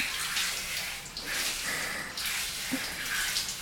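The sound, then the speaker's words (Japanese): Hot water pours gently and steadily, a soft continuous flowing gush that stays faint and even throughout, with no voices. “お湯柔らかに流してるから、こうして”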